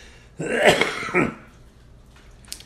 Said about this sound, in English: I just got the one little cough.